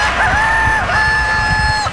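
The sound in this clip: A rooster crows once in a single drawn-out, bright, wavering call lasting about two seconds, with a brief dip in the middle and low background noise underneath.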